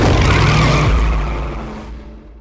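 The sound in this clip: Race cars roar through a film's racing scene: a loud, dense engine blast with a deep low rumble that drops in pitch partway through, then the whole sound slowly fades toward the end.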